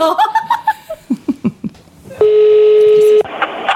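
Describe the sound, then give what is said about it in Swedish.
A telephone tone sounds while someone is dialed for a call: a single steady, loud electronic tone holds for about a second, following a stretch of laughter. “Ska vi inte ta och ringa honom?”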